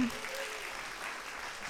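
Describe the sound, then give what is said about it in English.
Audience applause for a volunteer champion introduced at a community gathering: a steady, fairly faint patter of many hands clapping that runs throughout, briefly overlapped by a voice at the start. “you can give her a clap.”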